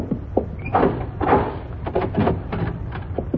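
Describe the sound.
A door being opened, with a run of knocks, rattles and scraping clatter of moderate loudness that rises and falls unevenly throughout.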